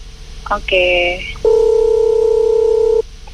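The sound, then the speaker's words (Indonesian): A telephone is dialed with a few quick dual-tone keypad beeps, followed by a long, steady, slightly pulsing tone for about a second and a half before it stops. “Coba kita hubungi Ibu Ida dulu ya.”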